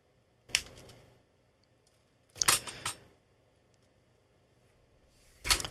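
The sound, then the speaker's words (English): Diagonal cutters snip wires down to about three-quarters of an inch: a few sharp, crisp clicks, spaced by quiet gaps, with one burst holding several quick cuts close together. “We'll take our diagonal cutters and cut these off to about, 3/4 of an inch.”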